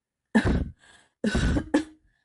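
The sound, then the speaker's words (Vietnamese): Dry coughing in a few short, harsh bursts separated by a brief pause, fairly loud and with no talk. “Lạc Nghệ ho khan hai tiếng”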